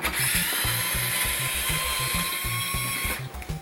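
Steady high-pitched whine of an electric screwdriver driving screws into a Famicom console case near the power switch. It runs continuously for about three seconds and then cuts off.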